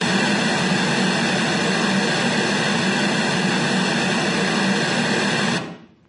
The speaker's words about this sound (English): I'm going to run these. This is a periodic noise rather than a log sign sweep.